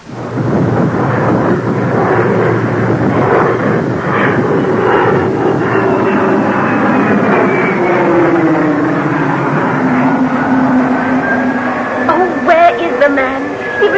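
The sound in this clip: An airplane on the tarmac about to take off, its jet engines producing a loud, continuous roar with a high tonal whine that shifts in pitch throughout.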